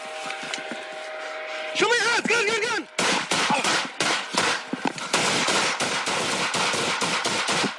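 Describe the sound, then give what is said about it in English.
Police gunfire at an unarmed man in a backyard: a rapid volley of many sharp, loud cracks in quick succession, preceded by shouting voices. “Shots fired, subject down.”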